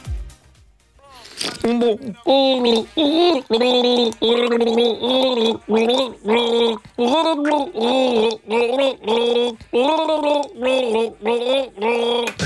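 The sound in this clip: A person gargles the melody of a pop hit, the bubbling water shaping a series of rhythmic, pitched notes in short phrases. Loud and alone, it follows a brief rustle at the start.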